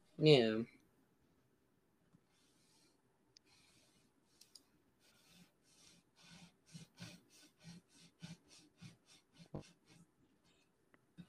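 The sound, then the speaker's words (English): Rhythmic rasping of a sock rubbed back and forth against a table, sounding like wood being sawn. Many short strokes grow louder and more regular after a brief voice at the start. “Fucking cutting a piece of wood? I am rubbing my sock against the table. It's kind of weird. Like you're sawing a piece of wood.”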